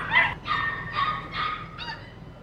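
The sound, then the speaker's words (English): Beagle puppies yip and bark while playing in a care and rehabilitation center, just let out of their transport crates. Five short high-pitched cries come in quick succession, with no talk. “lots of puppies barking and playing and finally out of their transport crates and kind of getting settled in, running around and playing.”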